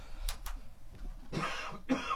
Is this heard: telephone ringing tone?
no